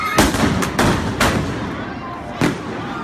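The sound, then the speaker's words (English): Police flashbang grenades going off at a violent night street protest in Portland, Oregon: several sharp, loud bangs at irregular intervals, one louder blast near the end, over a steady noisy crowd background. “Here's the sound of protests in Portland, Oregon last night. Protesters got violent. Police used flashbangs to disperse the crowd.”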